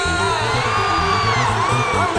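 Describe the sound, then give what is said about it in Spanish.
A church audience shouting hallelujah at a worship service, a loud, sustained roar of many voices yelling and whooping together without a break through the whole clip. “¡Alguien grite aleluya!”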